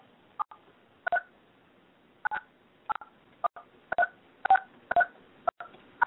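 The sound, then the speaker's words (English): Telephone keypad tones as a host PIN and then the pound key are entered: many short, fairly soft two-pitch beeps, some in quick pairs, spaced irregularly across the stretch with near silence between. “Please enter your host pin. Okay. Press the pound key.”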